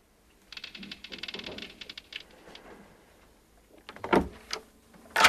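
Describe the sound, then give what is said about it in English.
A cabin door aboard a boat opening: a stretch of soft rattling scrape, then a quiet pause, then a few sharp knocks and clicks near the end. “John opens the door of Warrener's cabin, looks in, then leaves.”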